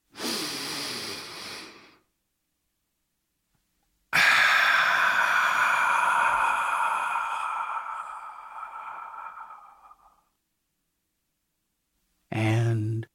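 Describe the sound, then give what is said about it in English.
A deep breath: a roughly two-second inhale, then a loud, long exhaling sigh lasting about six seconds that slowly fades, with one more short breath near the end. “let's take a deep breath”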